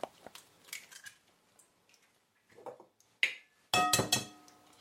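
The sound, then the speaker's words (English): Eggs being cracked for a recipe, with a plastic cup at hand: a few soft clicks and handling noises, then two sharp, louder cracking knocks near the end, with no talk. “So first, what we're going to do, going to crack your eggs.”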